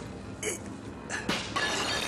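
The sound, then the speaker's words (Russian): Glass pane in a door smashed with a fist: a sharp shattering burst, then a few more bright crashing and tinkling bursts over a steady background hiss. “Кулаком разбивает стекло в двери.”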